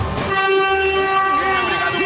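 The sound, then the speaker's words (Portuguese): A train horn blares at Piaçaguera in one loud, sustained chord that runs through the whole clip, steady and bright over a low rumble from the train. “Vamos lá, vamos buzinar. Buzina aí, meu filho.”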